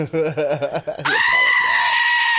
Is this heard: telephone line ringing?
no

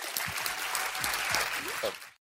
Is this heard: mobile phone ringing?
no

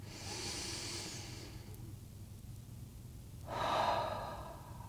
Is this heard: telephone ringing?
no

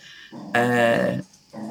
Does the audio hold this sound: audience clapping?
no

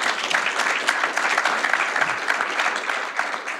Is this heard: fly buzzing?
no

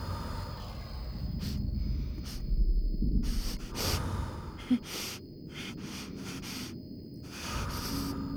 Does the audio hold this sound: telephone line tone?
no

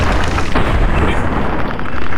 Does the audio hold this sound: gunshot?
yes

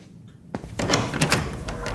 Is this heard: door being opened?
yes

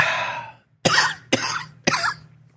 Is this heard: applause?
no

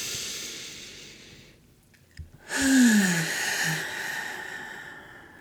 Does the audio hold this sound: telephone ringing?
no

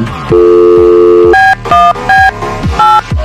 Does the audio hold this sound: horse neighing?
no

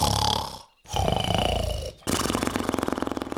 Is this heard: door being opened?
no

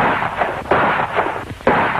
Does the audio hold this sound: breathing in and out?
no

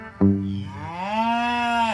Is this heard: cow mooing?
yes

